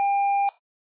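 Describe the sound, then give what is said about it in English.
A single steady voicemail recording beep, a clear mid-pitched tone lasting about half a second, stops abruptly and leaves silence. “Please start recording your message after the tone.”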